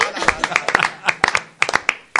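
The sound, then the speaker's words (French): Hand clapping on a quiz game show: a quick, irregular run of many sharp, bright claps, loud and close together. “J'applaudis.”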